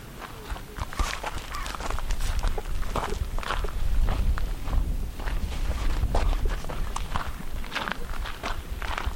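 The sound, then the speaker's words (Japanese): Footsteps of people walking toward an ancient burial mound: many steady, scuffing steps in a continuous rhythm throughout, moderately loud, with no talk. “じゃあここから歩いていきます”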